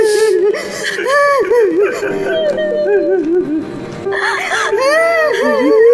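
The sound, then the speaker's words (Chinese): A woman sobs on seeing her son, her loud, high, wavering cries and whimpers rising and falling in broken, quivering bursts almost without pause across six seconds. “见到儿子那一瞬间，这个阿姨一下子全释放出来了。我觉得这可能是她这么多年哭得最痛快的一次。”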